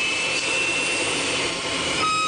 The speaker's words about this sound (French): Je mets en puissance, commandant. Mettez en puissance, on s'aligne sur la piste. Mise en puissance du moteur.